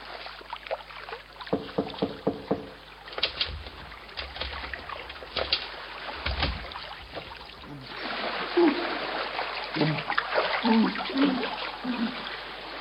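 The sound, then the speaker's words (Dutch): Water bubbles and sloshes in a cellar. The low, watery churning is broken by soft splashes and grows fuller and busier toward the end. “Ik hoor een borrelend geluid uit de kelder komen.”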